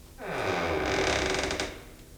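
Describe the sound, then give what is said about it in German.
Door creaking as it is opened: a single drawn-out creak of about two seconds, rising in at the start, holding steady at moderate loudness and fading away near the end. “Ich öffne jetzt die Tür.”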